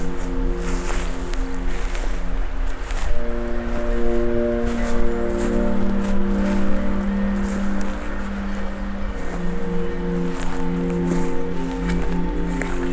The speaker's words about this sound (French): Petit cours d'eau.